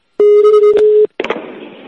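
A telephone line rings while a call is put through to a hospital morgue: one steady ring tone with a click partway through, then a short gap and a burst of clattering, rustling handset noise.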